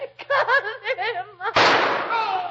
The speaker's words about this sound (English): Holmes, she shot him. Quick, Watson, we've got to see him. Perhaps he's not dead yet.